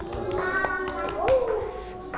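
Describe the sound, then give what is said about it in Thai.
Children in a classroom clap for themselves after building with toys. A few scattered, uneven hand claps sound among children's voices and an adult voice. “ชั้นของเล่นด้วยเก่งมากค่ะเด็กๆปรบมือให้ตัวเองค่ะ”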